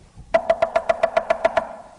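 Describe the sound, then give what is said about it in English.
Someone knocks at a door with about ten quick, evenly spaced raps. Each knock is hollow and resonant, and nothing else is heard. “somebody's at the door. Y'all go see who it is.”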